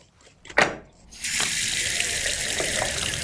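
Tap water rushes steadily while a scaled fish is rinsed. A brief knock comes first, then the flow starts abruptly and runs as an even, broad hiss to the end.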